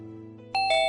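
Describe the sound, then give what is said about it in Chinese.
A doorbell rings urgently in the early morning, sounding two bright chime tones in quick succession over a low, steady drone. “林浩忽然被一阵急促的门铃声吵醒”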